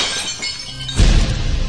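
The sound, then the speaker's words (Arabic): A drinking glass full of cola breaks with a sudden bright shatter, its crash bursting out of low background noise and trailing into scattered crackling fragments. “ولك شو اللي جرالك؟ كبيت الكولا كسرت الكوباية.”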